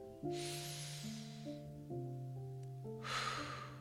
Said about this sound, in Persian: یک دم میگیریم باز دم دو دم آخر